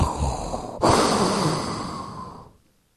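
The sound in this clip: Breathy, rasping inhale and exhale pushed close into a microphone by a voice imitating Darth Vader's mechanical breathing, with one sharp rush of air that swells suddenly, then slowly fades to silence.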